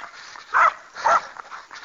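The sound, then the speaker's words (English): A dog barks twice from behind a chain link fence. The two sharp barks come about half a second apart over a faint background hiss. “She always barks at me. Like she's going to eat me up behind the chain link fence.”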